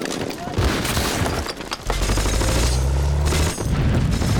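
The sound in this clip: Gunfire in a video game, rapid bursts of shots crackling in dense volleys, with a voice talking over part of the firing.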